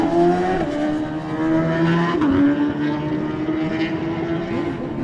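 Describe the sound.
Loud superbike motorcycle engine pulling away from a race start after a slight hop on the clutch. The high, strained note climbs, drops at a couple of gear changes, and climbs again.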